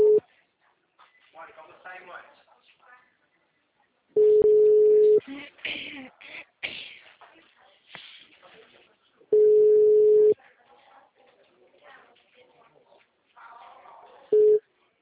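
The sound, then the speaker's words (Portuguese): A telephone call rings on the line as a ringback tone: steady mid-pitched beeps about a second long, repeating roughly every five seconds, with faint talk in the quiet gaps between them. “Pode ligar, tô ligando pra ele por aqui.”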